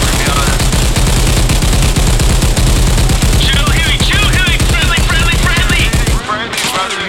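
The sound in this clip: Stamped AK rifle fire in a video game, a loud, unbroken stream of rapid automatic shots that rattles on for several seconds, with a voice briefly heard over the fire.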